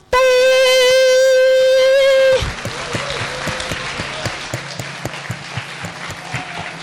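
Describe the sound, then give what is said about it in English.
People clapping, a patter of many claps that starts right after a long held sung note and carries on to the end, with a low steady tone beneath it. “我聽到有人拍掌 I could hear some clapping.”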